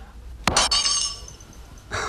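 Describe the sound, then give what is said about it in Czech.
Glass breaks into shards: a sharp crash followed by bright, tinkling debris that rings on and fades, then another short burst of breaking glass near the end. “Střepy znamenají štěstí.”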